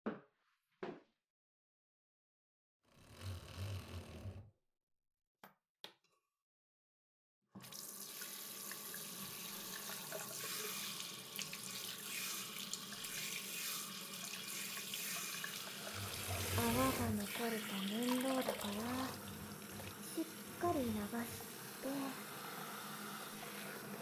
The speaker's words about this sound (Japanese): じゃあ、お湯で流しちゃいまーす。